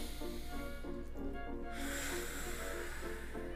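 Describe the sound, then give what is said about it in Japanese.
Slow, deep breath drawn in through the nose, a faint soft hiss of airflow that holds steady for a few seconds. “一回深呼吸します、 しましょう、 はい、 鼻から吸って 鼻から吸って”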